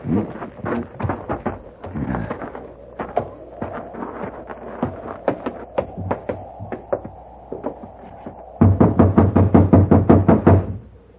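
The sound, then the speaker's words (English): Knocking on a locked door to wake someone: many sharp raps in uneven clusters, ending in a louder, faster burst of pounding. “You just have to keep knocking till he wakes up.”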